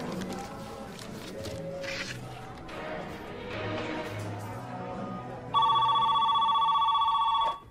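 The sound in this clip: Telephone ringing: a loud, trilling electronic ring bursts in and holds for about two seconds, cutting across several seconds of dense, noisy background before it stops.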